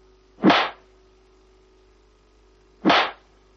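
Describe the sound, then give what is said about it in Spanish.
Two heavy, sharp blows as a man strikes a boy hard in a scene from the 1982 drama film Fanny & Alexander. The two hits are well apart, each a brief thwack, with silence between them. “Eduard le golpea con fuerza.”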